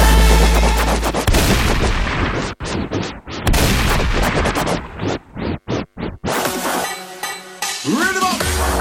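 A gunfire sound effect of shooting in the face, with many loud, harsh blasts and bursts in rapid, irregular succession and a few brief gaps around the middle.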